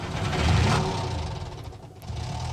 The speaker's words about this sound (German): es gibt so viele Nummern, die mit einem startenden Auto, das ist offensichtlich auch so ein amerikanischer Pickup.